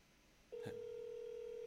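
A telephone call tone on a line being dialed: a faint click, then a steady, loud, low tone that starts about halfway through and holds unbroken to the end, with no voices.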